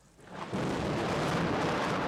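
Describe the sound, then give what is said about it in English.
Thunder rolls in as a deep, broad rumble that swells after about half a second and then holds steady and loud, with no voices. “Yeah, thunder. Could it be rain? Coming your way shortly.”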